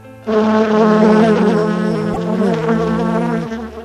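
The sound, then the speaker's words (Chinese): Bee buzzing as it flies in through a window: a steady, droning buzz with a wavering pitch that starts abruptly and holds for several seconds before easing slightly at the end. “有一只小蜜蜂从窗户飞了进来。小熊维尼想把小蜜蜂赶走，但是小蜜蜂绕过小熊维尼飞进了客厅。”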